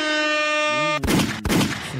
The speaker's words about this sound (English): Let me get a horn and two gunshot combo.